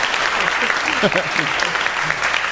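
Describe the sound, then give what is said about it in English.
Applause from an audience marking a year of Tiki Mondays, a dense and steady clapping that runs throughout, with a faint voice briefly under it. “That's a long applause, and that's a well-deserved one.”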